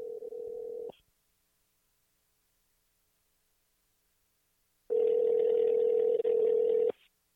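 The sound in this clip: Ringback tone of an outgoing phone call waiting to be answered: two steady, mid-pitched electronic ringing tones with a long silent gap between them, the first cut short at the start. No voices are present.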